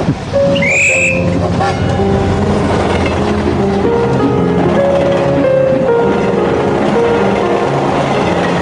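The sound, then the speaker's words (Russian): A train moves along railway tracks through a tangle of sidings, giving a steady, dense rumble with sustained tonal squeals throughout and a short whistle-like chirp near the start. “Рельсы поблескивали под утренним солнцем. Поезд пробирался через путаницу подъездных путей.”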